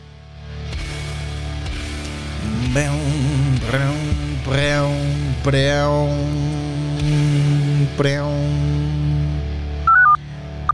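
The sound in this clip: Telephone dialing tones for a listener call-in line: a long run of loud electronic tones with wavering pitch over a steady hum, ending with a few short beeps.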